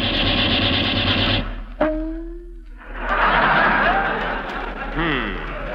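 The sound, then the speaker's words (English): A gunfire sound effect in a comedy program: a rapid rattling burst, then a sharp crack with a ringing, descending whine. A broad wash of steady noise follows. “They weren't shooting at me.”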